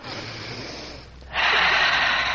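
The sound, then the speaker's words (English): A person taking a deep breath, drawing in air as a loud, steady, airy hiss that swells suddenly and holds to the end, after a quieter breathy stretch. “Just let me take a deep breath of this air.”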